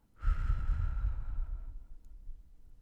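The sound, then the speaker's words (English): A deep breath is taken during a relaxation exercise. It comes as one long, soft, airy sigh that starts suddenly and tapers away after about a second and a half, with nothing else heard. “let's take a deep breath in and deep breath out.”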